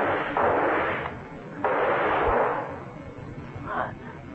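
Gunshots in a horror radio drama, fired at a giant leech at a lake: three heavy, booming blasts with long rumbling tails, the last one shorter and fainter.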